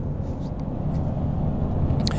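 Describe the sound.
Steady low engine and road rumble from a car merging onto a road, continuous and even throughout with no voices.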